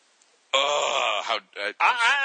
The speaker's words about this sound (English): What are you groaning about?